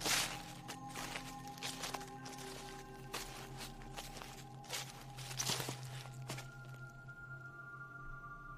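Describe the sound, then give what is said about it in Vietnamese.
Rustling footsteps outside the door of a riverside hut at night: many faint, irregular scuffing steps, uneven in rhythm and growing sparser toward the end. “tự dưng anh nghe có tiếng bước chân người cứ sột xà sột soạt ở bên ngoài cửa.”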